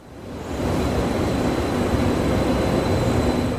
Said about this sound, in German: Noch fahren die Nahverkehrszüge zwischen Lübeck und Kiel ohne Probleme.